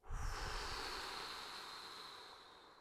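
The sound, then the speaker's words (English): A long exhale blown out after a big inhale during a breathing exercise: a single soft, airy rush of breath that starts abruptly and slowly fades over about three seconds, with no talk. “And with the last breath, bringing it all the way home, big inhale. Exhale by blowing.”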